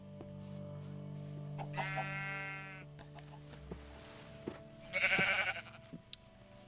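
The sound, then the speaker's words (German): Sheep in the Minecraft video game bleat twice, each a short, buzzy, wavering call, with the second louder than the first, over a faint steady background. “Die Schafe sind am Meckern”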